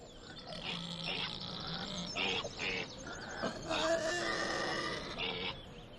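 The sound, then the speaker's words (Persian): A pig grunting: faint, continuous rough grunts and snorts with a few higher squeaky notes. “بابا این خوک تو نیست هست؟”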